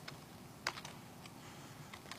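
Typing on a computer keyboard, a faint series of irregular key clicks with one sharper tap early on and a few quick strokes near the end, over a quiet background hiss.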